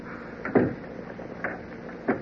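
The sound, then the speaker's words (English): A key turns in a door lock as someone locks up, giving three short, faint clunks spaced across a quiet moment. “You got the key to lock up here with? Yeah, got it in my pocket here somewhere.”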